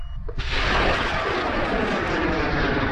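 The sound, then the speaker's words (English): A student-built, 5-metre-tall, 40-kilogram rocket launches from a remote sheep-station field in far west New South Wales: a faint low rumble gives way abruptly to a loud, dense roar that holds steady to the end. “Launching thousands of feet into the air, a 5-metre-tall, 40-kilogram rocket takes off from a remote field in far west New South Wales.”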